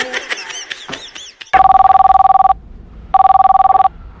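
Telephone ringing in two loud, bright bursts of rapid trilling, separated by a short pause and clearly standing out on their own.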